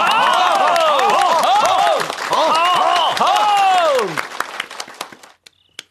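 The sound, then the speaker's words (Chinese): An assembled audience applauds as a commander is introduced, dense clapping mixed with wavering cheers for about four seconds, then thinning to a few scattered claps and stopping. “大家鼓掌。”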